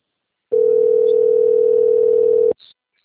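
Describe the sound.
Telephone ringback tone on an unanswered call: a single steady, mid-pitched electronic tone lasting about two seconds, followed by a short, faint blip.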